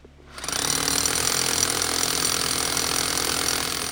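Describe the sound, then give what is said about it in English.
A power drill bores into a big boulder during trail repair work in the woods. It spins up quickly into a loud, continuous, gritty grinding roar that holds steady to the end. “This is the sound of a team of people who have carried hundreds of pounds of equipment over a mile into the woods in order to fix a hiking trail that is falling apart. They drill holes into a big boulder,”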